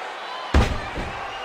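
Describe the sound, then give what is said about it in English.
A wrestler slammed into the ring by a suplex during an elimination match: one heavy, sharp thud, followed moments later by a softer secondary thump over low background noise. “Huge suplex into the ring.”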